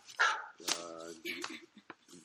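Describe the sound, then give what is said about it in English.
A text message alert tone that imitates a barking dog, a few short sharp barks and yips with a brief whine, fairly faint. “That's just my dog barking in the background, but it's actually just a text message.”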